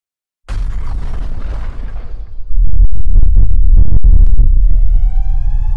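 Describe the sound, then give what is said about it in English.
A massive explosion boom in a dramatic story about a sudden inferno: a sharp blast, then deep sustained rumbling that surges louder partway through, broken by sharp cracks, with a tonal ringing at the end. “Sam heard a massive boom as the Altera shook him to the bone. The inferno was sudden. Its hot, blazing flames roared and boomed.”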